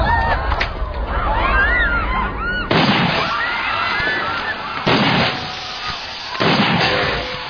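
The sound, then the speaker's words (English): A repeating rifle with a smooth cocking action and a loading port is fired several times. Each sharp, loud bang comes at an uneven interval, and busy noise fills the gaps between shots. “This beauty. You could kill yourself 5, 6, 7 braves without ever having to reload. Note the patented loading port. In the smooth cocking action.”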